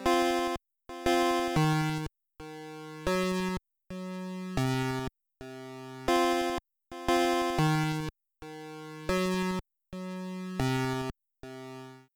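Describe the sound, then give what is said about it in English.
Isolated, slowed-down echo effect from Metal Gear video game music: bright, buzzy synthesized notes come in many short bursts, each trailed by a quieter echo and separated by brief gaps of complete silence. “a key difference is that there's sometimes a frame or two of complete silence before it, it jumps back into to volume one where the echo kicks in, instead of being tied directly to the note before it. Here's an isolated and slowed down example from the track we just listened to.”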